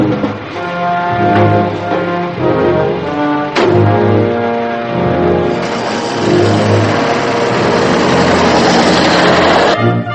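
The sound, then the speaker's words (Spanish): A truck engine pulling up to a stop: a loud, harmonic engine drone shifts pitch several times, then settles into a steady, rougher rumble. “Un camión se detiene ante Cavendish que hace autostop.”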